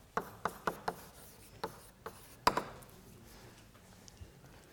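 Scratchy writing strokes as a formula is written out, a few short, sharp scrapes in quick succession followed by sparser, fainter strokes, with no talk.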